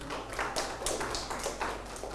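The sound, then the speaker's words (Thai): Children clapping for a classmate, a brisk scattered patter of small hands, fairly faint and uneven, with no voices over it. “ถูกต้องปรบมือให้เพื่อน”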